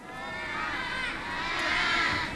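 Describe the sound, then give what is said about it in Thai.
Excited children shout and cheer as a crowd during a kids' game show, right as a category number is picked. The high, continuous voices swell and hold steady, loud throughout. “โอ้โหกองเชียร์อะไรนะลูก”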